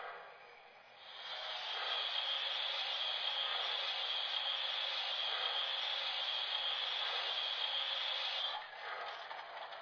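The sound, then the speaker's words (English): A steam locomotive's injector is turned on, bringing in a steady, loud hiss of steam that swells up early and holds evenly before dropping off near the end. “I see the conductor's checking his watch again. Must be time to go. Turn on the injector.”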